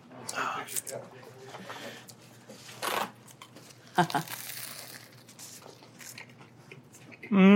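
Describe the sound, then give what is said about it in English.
Biting into Italian hot dill pickle spears: a few sharp, crisp crunches mixed with crinkling and rustling, with a brief voice sound at the end. “Oh, these are Italian hot dill spears. They taste a lot like the ones I make at home. There's a couple of dill spears. Amazing.”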